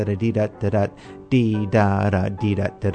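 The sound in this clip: A voice imitates a syncopated cakewalk rhythm, singing bouncy 'da' syllables in short clipped notes with a few longer held ones, and the pitch moves up and down.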